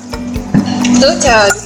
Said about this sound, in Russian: Теперь мы заправляем все это оливковым маслом. Мы хорошенечко все это перемешиваем.